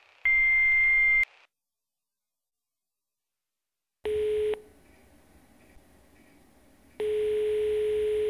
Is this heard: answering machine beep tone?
yes